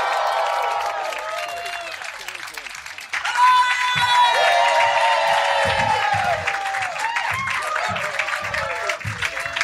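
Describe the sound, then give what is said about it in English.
An audience applauds and cheers at a live show taping. The crowd noise swells sharply about three seconds in and keeps up steadily, with a voice carrying over it. “Please put your hands together, go crazy.”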